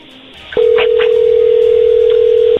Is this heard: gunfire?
no